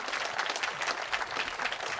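Steady, dense applause from an audience at a live music event, with a continuous crackle of many hands clapping at an even loudness throughout and no voices.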